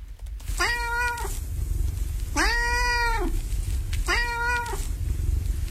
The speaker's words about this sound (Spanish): Es el que quiere se quiere hacer notar, quiere pedir atención. Es un gato pidiendo atención.